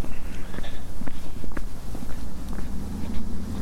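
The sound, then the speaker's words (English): Footsteps walk across a road toward a hillside, a steady run of soft scuffing steps over a rumbling, noisy background. “So we just crossed the road. Walking over here to this hillside”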